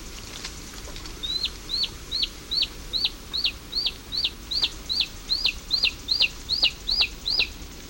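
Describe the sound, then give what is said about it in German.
A newly hatched bird chick screeches loudly to be fed, a long, regular run of high, thin, hooked calls about every half second, standing out against a quiet background. “Schon von klein auf kreischt es sehr laut, um gefüttert zu werden”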